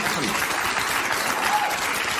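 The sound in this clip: Audience applause, dense and steady from start to finish, with a continuous wash of crowd clapping at an even loudness.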